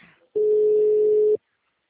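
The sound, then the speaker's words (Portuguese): A single ringback tone from an outgoing telephone call plays as a steady, mid-pitched beep lasting about a second, alone after a short faint sound. “pera aí que eu tô ligando aqui pra dona Cleonice”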